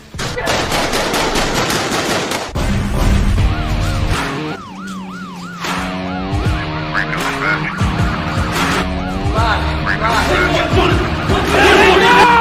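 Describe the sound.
Rapid gunfire answers an order to open fire, with a quick string of sharp shots, followed by loud wailing, siren-like tones that rise and fall over heavy noise.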